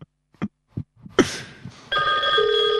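Skype call ringing tone: a few soft clicks and a brief noisy burst, then steady bright electronic tones that start abruptly and hold to the end, with a lower tone joining partway through.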